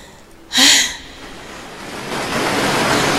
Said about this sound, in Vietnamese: trước một con sóng lớn sắp ập tới, Nghiêm Dũng